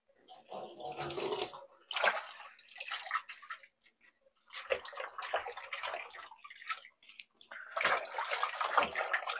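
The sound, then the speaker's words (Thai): Water sloshes and splashes during a first rinse, washing something until the water runs clear after a spoonful of rust-iron water was added. Irregular bursts of rinsing come in uneven waves with short pauses between them. “อันนี้เราล้างน้ำแรกอยู่นะคะท่านผู้ชมเราจะล้างเขาจนกว่าเขาจะใสเลยนะคะ”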